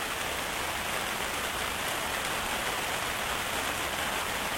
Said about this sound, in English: So the rain is an opportunity